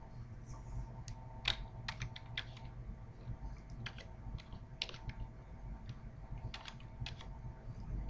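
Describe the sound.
Typing on a computer keyboard as a PubMed ID is entered: irregular bursts of crisp key clicks, some sharper than others, scattered over a faint steady background hum.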